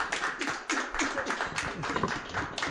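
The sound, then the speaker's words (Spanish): A small group clapping during a live program, the sharp claps uneven and spaced apart rather than merged into a roar. “Ah, sí, aplausos.”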